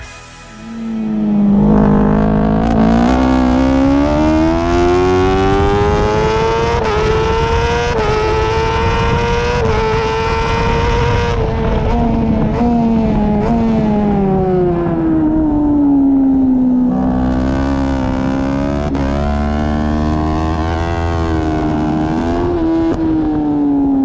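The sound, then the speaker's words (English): A BMW factory superbike's engine, heard onboard through a few corners at the Lausitz Ring, wails loud and continuous as it goes through the gears. Its pitch climbs, dips sharply near the middle, falls away, then rises again. “with the pure sound of a BMW factory superbike going through the gears, for no other reason than it sounds incredible”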